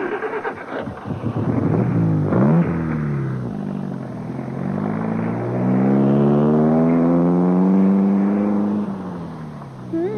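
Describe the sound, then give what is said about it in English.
A car engine drones loudly and steadily, its harmonics shifting and gliding in pitch as it starts up and drives away, with a strong smooth hum throughout and no voices. “Get inside, Jane. I'll drive you home.”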